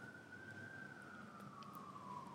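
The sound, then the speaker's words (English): A faint emergency-vehicle siren holds one high, steady wail that drifts slowly downward in pitch, with no voices. “Pardon that siren, guys. But it does make you... It's not behind you, right? If you're in your car, this is our siren, not your siren.”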